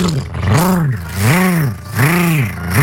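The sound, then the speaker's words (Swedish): A human voice imitates a lawnmower engine with a buzzing, droning tone that swells and sags in repeated rising-and-falling arcs, like an engine revving unevenly, loud and alone without other talk. “Men alltså min gräsklippare, den låter alltså, det är så här. Nu ska jag ge mig i kast med att härma min gräsklippare.”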